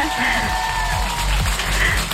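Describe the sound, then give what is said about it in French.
Brief applause from a studio audience with some cheering, a steady wash of noise beneath sustained tones and a voice. “Et bah, le public te remercie aussi, t'applaudis.”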